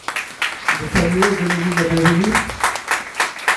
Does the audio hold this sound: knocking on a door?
no